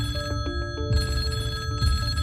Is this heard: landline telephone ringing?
yes